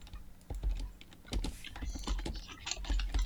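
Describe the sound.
Typing on a computer keyboard, with many rapid, uneven key clicks and thumps in a quiet, continuous patter and no talk.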